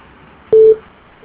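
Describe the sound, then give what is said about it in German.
A mobile phone voicemail beep signals the start of message recording: one short, steady, mid-pitched tone of about a quarter second, loud and alone over faint line hiss. “Bitte hinterlassen Sie eine Nachricht nach dem Ton.”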